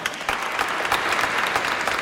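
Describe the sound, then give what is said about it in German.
Applause from an audience during a church service: a dense, even patter of many hands clapping at steady loudness throughout, with no voices standing out. “Ich habe einen Applaus für dich.”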